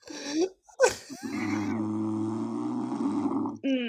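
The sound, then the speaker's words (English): A man snoring, one long, rough, drawn-out snore lasting a couple of seconds with a low buzzing tone, preceded by a few short breathy sounds and gaps of silence. “Depends on how long his snores are. They're getting kind of long.”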